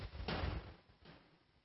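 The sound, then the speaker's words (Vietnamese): Knocking from people upstairs comes through as dull, low thumps. A long, heavier burst of banging is followed by a shorter, fainter knock, and both are fairly quiet. “Bảo các vị trên kia đừng có gõ cái đấy.”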